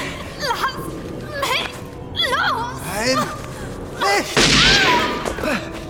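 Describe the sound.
A single sharp gunshot from a character's gun in a German radio drama, bursting out amid tense voices that speak and shout before and after it.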